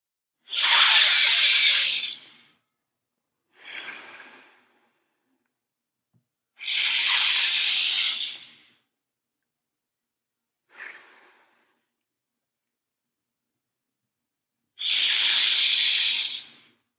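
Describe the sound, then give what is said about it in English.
Deep breathing during a guided breathing exercise. Three long, loud, airy breaths alternate with two shorter and softer ones, with quiet pauses between them. “You will be taking 30 to 40 full inhales and light exhales. Continue on your own.”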